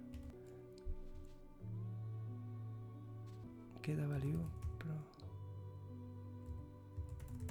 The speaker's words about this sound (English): I'm just typing.